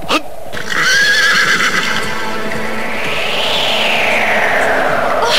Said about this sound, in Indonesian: luar biasa sekali lari kuda ini